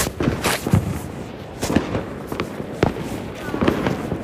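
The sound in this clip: Fireworks go off after midnight in several sharp, booming bangs at irregular intervals, with people talking in between.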